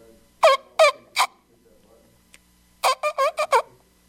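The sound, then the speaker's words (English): A hunting locator call is blown in harsh, squawking blasts, three spaced bursts followed after a pause by a quicker run of five, heard alone against quiet. “The first one, it's just a locator sound.”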